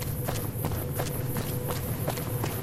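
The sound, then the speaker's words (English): Footfalls of a gecko running in the video game Fallout: New Vegas, a steady, quick rhythm of light patters over a constant background hiss. “There's a bug on the road, and another gecko running up to fight the bug. It looks like it killed it. It's running away.”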